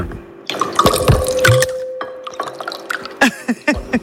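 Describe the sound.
Water poured in small amounts into a glass, giving a run of irregular drips and splashes with bright ringing tones, busy at first, then thinning into scattered drops.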